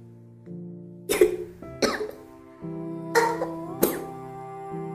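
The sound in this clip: Dry coughing from a woman with a burning, irritated throat: four harsh, short bursts in two pairs over a soft sustained musical background.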